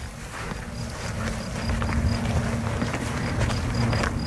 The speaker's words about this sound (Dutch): De krekel toch? Ik ga hem even niet verstoren.